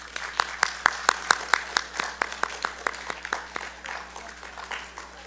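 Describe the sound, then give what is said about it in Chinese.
Audience applause as fathers and grandfathers stand on Father's Day: many sharp, crisp claps, loud at first, then thinning into softer, scattered clapping toward the end. “我們請所有做爸爸的、做阿爺的起身，讓我們一起鼓掌，恭喜他們，好嗎？”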